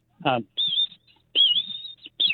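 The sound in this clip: Young American goldfinches give begging calls: high, thin, wavering notes in a few bursts, with a brief low sound before the first burst.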